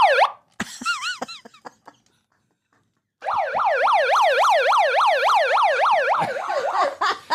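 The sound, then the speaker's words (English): An emergency vehicle siren sounds in short swooping wails, breaks off into a few seconds of silence, then returns as a loud, steady, rapidly cycling up-and-down yelp. “I'd like to apologize for the siren.”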